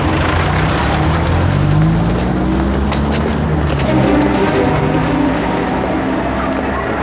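A car engine runs with a steady low drone whose pitch shifts as the vehicle pulls away, loud and continuous throughout with no talk.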